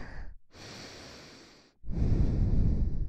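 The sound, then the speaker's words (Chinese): Slow, airy breathing during a guided breathing exercise: a short breath, then a long soft drawn breath, then a louder, rougher one. “我的呼吸和你的渐渐的在同步啊，吸气，”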